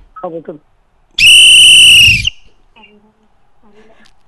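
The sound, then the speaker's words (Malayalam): A referee-style whistle signals that time is up in a football quiz round with one loud, steady, high blast lasting about a second. Brief voices are heard before and after it. “സമയം കഴിഞ്ഞു. അറിയാമോ? Whistle കേട്ടോ? Whistle കേട്ടില്ലേ?”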